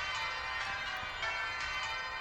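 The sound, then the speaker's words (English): Bells tolling faintly in a city, their slow, repeated strokes ringing softly over a steady, washing background hiss. “The bells toll above you.”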